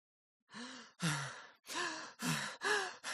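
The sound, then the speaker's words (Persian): Heavy panting after a run: six loud, voiced, gasping breaths in quick succession. “نفس نفس میزند و با احساسات”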